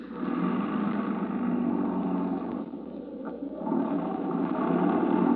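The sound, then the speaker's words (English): A car engine runs as the car is put in gear and starts to roll, giving a steady low rumble that dips briefly midway and then swells again, with no talk over it. “Now put it in gear, start it rolling, and jump.”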